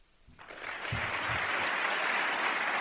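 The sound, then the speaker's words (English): A standing ovation of applause greets Ukrainian President Volodymyr Zelensky at the National Defense University in Washington; clapping swells quickly and holds as a dense, loud, sustained roar. “Welcome to the National Defense University in Washington with a standing ovation.”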